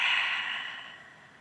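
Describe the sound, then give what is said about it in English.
A single deep breath let out slowly during a guided relaxation exercise: a soft, breathy exhale that starts fairly full and gradually fades over about a second and a half, with no voice. “Go ahead and take a deep breath. And as you let the air out, go ahead and close your eyes.”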